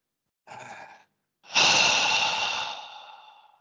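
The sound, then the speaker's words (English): A deep breath, drawn in as a short, breathy inhale and then let out in a long, loud sighing exhale that slowly fades away. “Just take a deep breath.”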